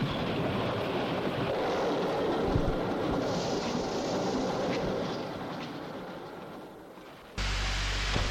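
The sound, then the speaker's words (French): A train rumbles steadily into the station at Chamonix, a loud, continuous low roar that eases slightly for a moment before surging back abruptly near the end, with no voices. “Lorsqu'il se réveille, le train arrive à la gare de Chamonix.”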